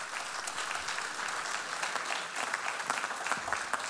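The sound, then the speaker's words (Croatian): Applause from a concert audience at a jazz orchestra event, clapping for the performers and organizers; a fairly soft but continuous patter of many hands with a steady, unbroken texture. “Jazz Orkestru HRT-a i Slovenskom veleposlanstvu aplauz za ovu inicijativu i za ovaj poziv našeg susjeda.”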